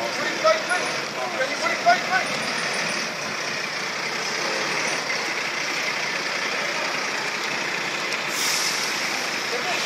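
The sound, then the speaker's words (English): A fire truck arriving at a blaze at South Africa's parliament gives a steady, low idling engine rumble that runs throughout, with voices talking over it. “one more fire truck arrived.”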